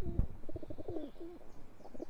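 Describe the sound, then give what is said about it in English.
A male feral pigeon coos while chasing a female pigeon, giving a run of low, grumbly, throaty coos in quick repeated pulses that keep going throughout. “That is definitely a male feral pigeon chasing a female pigeon.”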